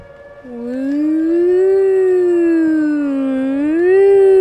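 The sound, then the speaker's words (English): A voice imitates a loud weekly Wednesday alarm, done softly. It is a single sustained wailing hum that slides up at the start, wavers gently, then rises again near the end, with no other sounds. “Could you imitate the alarm sound for me? It's just like, let me see. It's really loud, but I'm not going to do the loud sound.”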